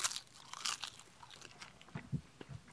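Chewing salty wakame seaweed, including its firmer core, with many soft, wet crunches and bites in an irregular rhythm, fairly quiet and with no talk.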